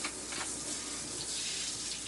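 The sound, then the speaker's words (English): Tap water runs over a vegetable chopper blade being rinsed, a steady, even rush of water splashing without pause and no voices. “So I'll just do a quick demo. You know, I'm just rinsing it off. Everything, this blade pops off like so.”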